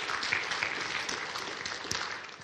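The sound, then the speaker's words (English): An audience applauding: steady, fairly faint clapping blends into a continuous patter throughout, with no break. “Thanks, guys. Give them a clap.”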